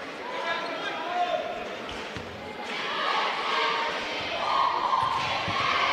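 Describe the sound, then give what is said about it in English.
A basketball is dribbled on the court during a game, its repeated bounces heard under a commentator's talk and crowd noise. “Another dribble, another one.”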